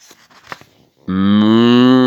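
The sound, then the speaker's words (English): A cow moos once, a long, steady, low and loud call that starts abruptly halfway through, after a second of faint rustling and near silence. “"Mmm, mmm," said the cow.”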